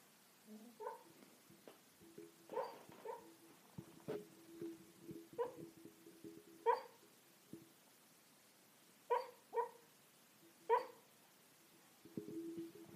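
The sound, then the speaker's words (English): Soft yips and muffled whimpering barks from a dog barking in its sleep under a table: a string of faint, short, high-pitched bursts separated by uneven pauses. “Do you guys hear that? That little, that's my dog sleep barking.”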